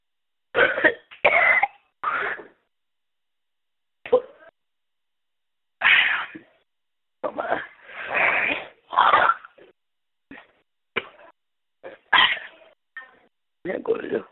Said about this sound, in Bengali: খুব কাশি হচ্ছে